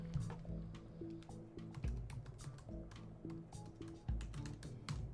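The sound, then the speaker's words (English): Typing an email on a computer keyboard: many quick, irregular keystroke clicks, some in short flurries, over a steady low background. “I was just writing, finishing up an email I was writing to the President Biden.”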